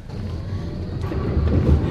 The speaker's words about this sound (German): Wir sind ja in so einem neuen, modernen Tram